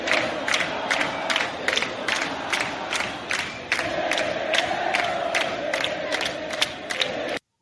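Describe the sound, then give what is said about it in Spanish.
Football fans chant in the stands. Many voices sing in unison over a steady, evenly spaced beat of sharp hits that runs throughout. The chant swells partway through, then cuts off abruptly. “se deja llevar por los cantos de la hinchada. Y sí, mira, escuchemos también. Vamos a escuchar.”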